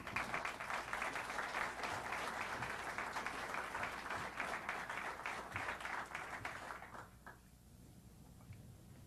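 An audience at the University of Chicago applauds to welcome economist Dr. Pedro Aspe. Dense, steady clapping holds for about seven seconds, then quickly dies away to near quiet.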